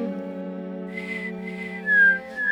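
A person whistles a short, high note that dips slightly in pitch over a steady, low humming drone.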